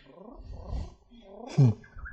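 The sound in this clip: A man imitates a canary's song with his voice: short, wavering voiced chirps, then a louder low burst, ending on a thin whistly note, all brief and untrained.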